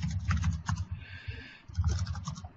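Typing on a computer keyboard: a rapid, fairly soft patter of clicking keystrokes in two runs with a short pause between them.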